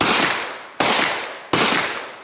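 Three loud, sharp gunshots from a pistol firing TT ammunition, evenly spaced about three-quarters of a second apart, each a hard crack trailing into a short decaying tail.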